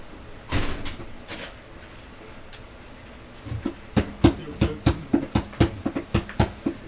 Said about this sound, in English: The door. I love it. That sounds good.